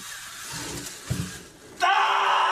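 A scream from someone having their hair pulled out, a sudden loud shriek that bursts in after a stretch of quieter rough noise and holds to the end.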